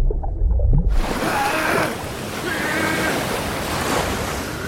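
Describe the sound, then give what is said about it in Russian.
Bubbles rising in murky water around a submerged man's face: a low rumble gives way after about a second to a steady, dense rushing and churning of water that carries on to the end. “перед лицом в мутной воде поднимаются пузыри.”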